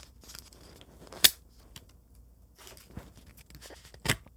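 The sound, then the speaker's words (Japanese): The lid on the lower part of an object is opened with quiet plastic handling: two sharp, loud clicks well apart, a softer click between them, and faint rustling throughout. “今ね、下の部分の蓋のところを開けたんだけど”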